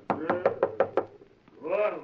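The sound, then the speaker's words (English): Knocking on a laboratory door: five evenly spaced, hollow raps in quick rhythm, then a brief pause before a voice begins speaking. “And every time I knock, wait, and you shall see. Here's the door.”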